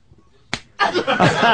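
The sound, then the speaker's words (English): A single sharp slap of a man being hit on the buttocks cracks out once, followed right after by people talking. “He's trying to goad me into hitting him harder.”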